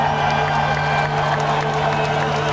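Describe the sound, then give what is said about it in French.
Relieved villagers cheer and acclaim a hero, a steady crowd clamour of mixed voices and scattered clapping that stays at an even, fairly loud level throughout. “Les villageois, soulagés et reconnaissants, acclamèrent Pierre comme un héros.”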